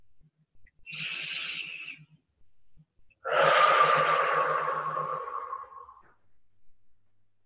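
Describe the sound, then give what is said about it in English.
Deep breathing during a calm relaxation exercise: one short, airy breath followed after a pause by a longer, louder breathy exhale that slowly trails off. The breaths are quiet and alone, with no talk. “I'm concentrating on my breathing, inhaling deeply, and exhaling”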